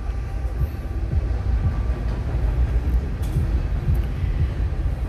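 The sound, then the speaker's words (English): A passing train heard from a porch: a low, steady rumble that holds at an even level through the whole stretch, without clear breaks or distinct clacks. “And now the train is coming.”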